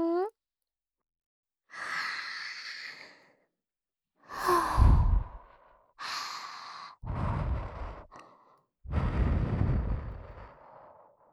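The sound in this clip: Soft, breathy puffs of air blown close into the listener's ear in whispered roleplay: several drawn-out airy bursts separated by short silences, with a brief voiced sound at the very start.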